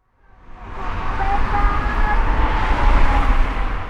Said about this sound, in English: We're cruising down a highway that loops through the center of Mexico City.